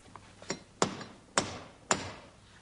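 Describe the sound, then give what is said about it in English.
Someone knocks at the gates: two faint taps, then three loud, sharp knocks at a fairly even, deliberate pace. “Open the gates. The Duke of Gloucester calls. Who's there that knocketh so imperiously?”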